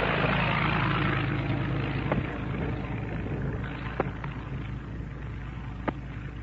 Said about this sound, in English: They're taxiing down the runway now. The pilots are in. Listen how they take off. They take off together.